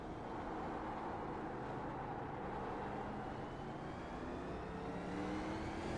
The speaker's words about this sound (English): All right, now pin the throttle. Go.